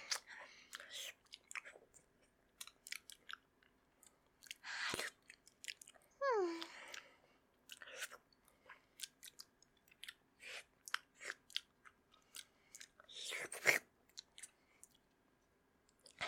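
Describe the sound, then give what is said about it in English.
Someone chewing food while eating quickly, with many rapid, moist crunchy bursts at an uneven rhythm and one brief falling vocal sound partway through. “I'll eat as fast as I want to eat. I don't care if my stomach hurts me. Delicious.”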